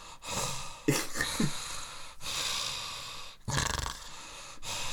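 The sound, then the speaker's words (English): A man's voice imitates the heavy wheezing breathing of an overweight person sitting still, with a few loud, rasping, snorting breaths separated by short pauses. “even when they're absolutely stationary they breathe like this.”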